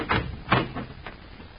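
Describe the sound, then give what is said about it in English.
A hotel room door being opened, heard as a few muffled clunks and scraping rattles spread over a second and a half, fairly quiet and with no talking. “Dr. Hawley opens the door and stands case in hand waiting for Mr. Fowler, the nervous hotel manager.”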